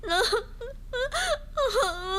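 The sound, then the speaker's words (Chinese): A person crying and wailing, with several drawn-out, wavering high-pitched wails broken by short sobbing gasps, loud and alone without other talk. “我求求你，我求求你别哭行不行啊？咱有话好好说好不好？求求你别哭，不哭了，不哭了啊。”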